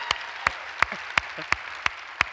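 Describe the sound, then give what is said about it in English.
Clapping from a church audience, heard as seven evenly spaced, sharp claps in a steady rhythm, fairly faint. “Would you let them know by way of applause that you know that they're there?”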